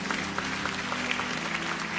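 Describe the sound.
Applause from an audience during a church service: a short, dense, even wash of clapping that holds at a steady level throughout.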